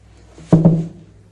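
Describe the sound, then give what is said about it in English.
Two quick dull thumps close together as a laundry basket is tipped over with a hoe, a short hollow knock that dies away into quiet. “Now I'll tip the basket over with the hoe.”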